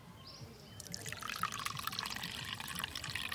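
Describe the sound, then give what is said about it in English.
Cacao drink is poured from a calabash gourd into a small gourd cup, a steady trickling stream that begins faint and swells into a fuller, continuous splashing pour. “and pours it into my little gourd cup.”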